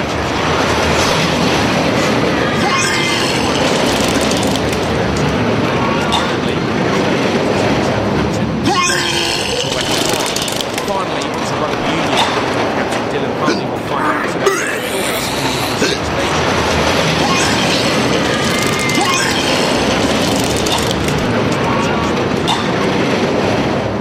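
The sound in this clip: A roller coaster ride: loud, continuous rumbling and clattering of the cars on the track, steady throughout, with voices mixed into the noise.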